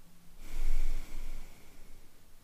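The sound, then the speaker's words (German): A single breathy exhale through the left nostril, with the right nostril held closed, swells to a soft peak, eases off over about a second, and then trails away into quiet. “Schließ mit dem Daumen das rechte Nasenloch und atme links aus.”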